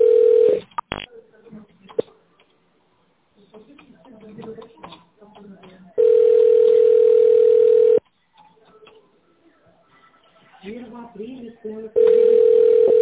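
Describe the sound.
A steady telephone tone plays while a call is transferred, a loud sustained hum in three separate stretches. Quieter talk and line noise fill the gaps between them.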